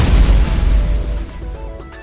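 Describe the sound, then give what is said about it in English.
A fire cannon attack in a video game lands with a loud, low boom at the start, then a rumbling burst decays steadily over about two seconds. “Steven Rogers launched fire cannon”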